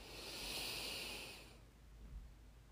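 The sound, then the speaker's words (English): A single big, deep inhale during a guided breathing exercise: a soft, breathy hiss swells and holds for about a second and a half, then fades into quiet. No one speaks. “So breathe that in, big inhale.”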